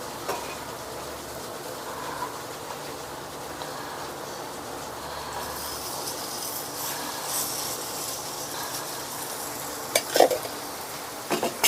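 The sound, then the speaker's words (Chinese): Hamburger patty sizzling in a little oil in a hot pan: a steady, even frying hiss fills the whole clip, with a few sharp clicks and pops near the end. “开火，锅中放一点油啊， 这是我剩下的汉堡肉，我把它放在里面去喽。”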